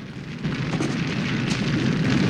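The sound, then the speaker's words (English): Flamethrower shooting flame and igniting liquid, a loud rushing roar that surges in abruptly and then burns on as a steady, heavy whoosh. “Fireball shoots the flamethrower and the liquid ignites.”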